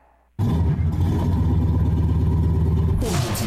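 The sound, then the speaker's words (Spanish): A car engine starts after the key is turned, catching abruptly out of near silence and settling straight into a loud, steady, low rumble with a rough, clattering texture. “Gira la llave y enciende el motor.”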